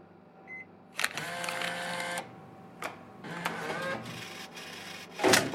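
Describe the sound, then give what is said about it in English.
A vending machine dispensing two items whirs and clunks in a few separate mechanical bursts with short pauses between them, fairly faint overall, and the last burst is the sharpest. “Don't you love it when the vending machine gives you two for the price of one?”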